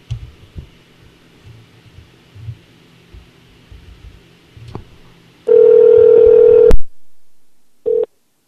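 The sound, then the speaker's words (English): A phone call ringing out and being rejected: one long, steady ringback tone, then abrupt silence and a brief second tone, after a stretch of faint low thumps. “Is his phone turned off, do you think? No, I think he was rejecting it.”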